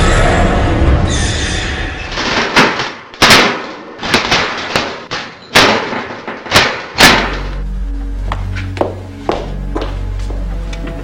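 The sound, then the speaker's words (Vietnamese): Heavy metallic bangs of an iron door slammed shut and locked, several loud hits over a noisy bed, followed by soft sustained music. “Bà Sơ họ Sái lạnh lùng nhìn hai thanh niên bước đi, rồi bà đóng cửa sắt keng một tiếng và khóa lại.”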